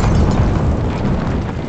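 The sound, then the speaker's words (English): Bomb detonation in a buried corridor in a video game: a loud, deep, rumbling roar that stays steady and dense from start to end, with no distinct separate blasts. “with pinpoint accuracy, you throw the bomb into the buried corridor, and the detonation...”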